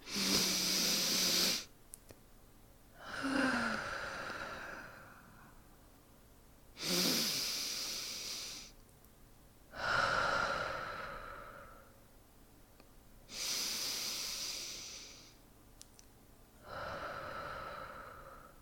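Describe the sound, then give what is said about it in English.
Slow, deep breathing: six long, airy breaths at an even, unhurried pace, each swelling and fading, with quiet gaps between and no talking. “Just come here and breathe with me, okay?”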